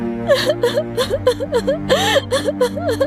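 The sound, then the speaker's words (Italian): Little Red Riding Hood, lost in the snow, cries in a voiced sobbing fit: many short whimpering bursts with wavering, rising and falling pitch, one after another without pause. “A un certo punto Cappuccetto Rosso si sentì completamente persa. e cominciò a piangere.”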